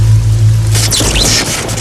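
Recorded rain played at home from a device used for sleep: a loud, steady wash of rainfall noise with a low hum beneath.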